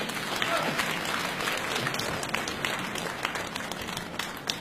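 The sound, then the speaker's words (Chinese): An audience applauds at a staged comedy sketch show as performers are called onstage, the steady, dense clapping of a crowd running evenly throughout without a break. “掌声请出江苏盐城文化馆的夏文兰、倪明”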